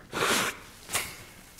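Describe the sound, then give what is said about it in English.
A person blowing their nose: a loud, breathy, noisy blast, then a shorter, fainter blow a moment later. “Maybe it wasn't such a smart idea to blow my nose right in front of the microphone.”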